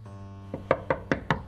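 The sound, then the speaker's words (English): Five knocks on a bathroom door, evenly spaced, with a softer first rap and firmer blows after it. A low steady hum runs underneath. “knocking on the bathroom door”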